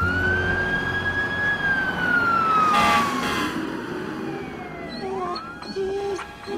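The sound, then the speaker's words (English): A fire truck pulls away, its siren sounding a long wail whose pitch slowly sinks, with vehicle noise underneath and a brief further sweep near the end. “Rex jumps down off the fire truck and comes to stand beside Shane. Terrence waves as the truck pulls away.”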